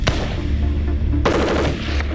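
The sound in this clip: Sustained fire from a QJB201 light machine gun, an infantry squad weapon of the Chinese army: a loud, dense burst of rapid shots that intensifies partway through.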